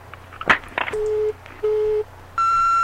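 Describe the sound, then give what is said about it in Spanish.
Telephone ringing tone heard while placing a call: a few brief clicks, then two steady, low, even-pitched tone bursts separated by short gaps, followed by a higher, brighter sustained tone. “Dale, atendé el teléfono. Si yo sé que estás ahí, Enrique”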